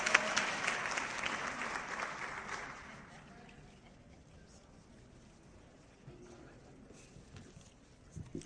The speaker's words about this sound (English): Let's give her a warm welcome.